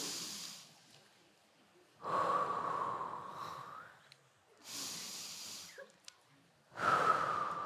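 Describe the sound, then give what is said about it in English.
Deep breaths taken during a guided relaxation exercise: several long, loud, airy breaths, each a broad rushing hiss lasting a second or two, separated by quiet pauses. “3 times and then go to the other side 3 times. We're gonna take 3 deep breaths.”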